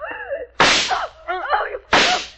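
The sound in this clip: Radio drama sound effect of someone being hit: two sharp, loud slapping cracks, each a sudden burst, with a voice crying out before and between the blows.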